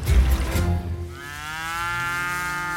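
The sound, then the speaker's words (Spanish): A dairy cow in the Lower Oder Valley national park lets out one long, steady moo at milking time, droning for nearly two seconds after a few brief, lower, rough sounds at the start. “Bueno, vamos, chicas, a ordeñar. Sus ubres ya están enormes. Un idílico paisaje en el Parque Nacional del Valle del Bajo Oder. Estas vacas viven”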